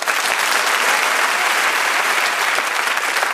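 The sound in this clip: A studio audience of a topical news panel show applauds as the first team is welcomed, producing dense, even clapping that stays loud and steady throughout.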